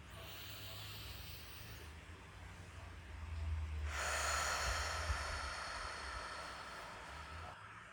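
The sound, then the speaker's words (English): A slow, deep breath: a soft inhale drawn in through the nose, then a longer, airier exhale pushed out through the mouth. It is a steady hiss with no talking over it. “I want you to take a deep breath in through the nose, drawing the breath past the chest, right into the belly, and then a long exhale out through the mouth.”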